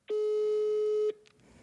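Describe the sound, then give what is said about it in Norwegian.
A phone rings while someone calls their grandmother. A single steady, mid-pitched tone lasts about a second and then cuts off, followed by a faint click. “Skulle vi ringt bestemor? Ja, skulle vi gjøre.”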